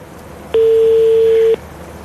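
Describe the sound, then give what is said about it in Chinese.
A single steady ringback tone from a telephone call waiting to be answered, lasting about one second, alone over faint background hiss. “现场连线亚伯尼西医疗科技苏州有限公司姚先生的电话，看看能不能打通。好，我们场外努力一下啊。好，正在等待接听当中。”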